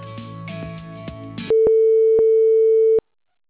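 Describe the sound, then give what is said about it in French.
A telephone call is put on hold. A short stretch of tinny electronic music gives way to a loud, steady single-pitch tone, lasting about a second and a half, that then cuts off abruptly. “Votre correspondant vous a mis en attente. Merci de bien vouloir patienter.”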